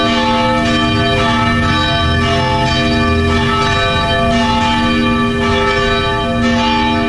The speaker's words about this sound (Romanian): Un moment cu o puternică încărcătură emoțională a avut loc la ora 11, când au fost trase clopotele catedralelor, mănăstirilor și bisericilor din întreaga țară.